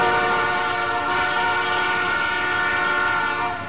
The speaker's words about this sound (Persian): قطار یک سوت بلند کشید